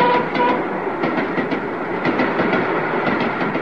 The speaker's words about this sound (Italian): Però l'altra volta c'erano più vagoni. Vabbè, insomma, il treno è sempre il treno, eh.